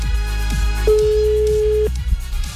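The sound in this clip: A telephone rings on an outgoing call: a single steady ring tone lasts about a second over continuous background sound.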